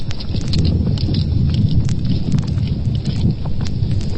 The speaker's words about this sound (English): It sounds just like somebody using a sledgehammer.